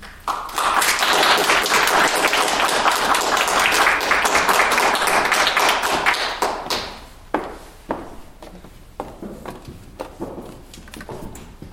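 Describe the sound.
An audience applauds to welcome four panel speakers, with dense, loud clapping for about six seconds that tapers to scattered claps, taps and thumps.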